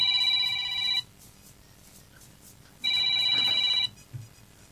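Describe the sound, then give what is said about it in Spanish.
A telephone rings in two separate bursts, each lasting about a second with a long pause between them. The ring is bright and high-pitched, and only a quiet background is left between the bursts. “Vamos, están llamando.”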